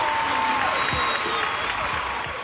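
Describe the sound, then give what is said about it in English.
Studio audience applause for a show intro at Red Rock Studios in Los Angeles, a dense, steady wash of clapping that continues loudly throughout with some crowd noise mixed in. “From Red Rock Studios in Los Angeles, California, this is the Shiznit. Now, put your hands together for the Shiznit.”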